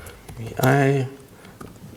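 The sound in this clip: Keystrokes on a computer keyboard during a server login: a few sparse, light clicks, with a short spoken voice loudly in between them.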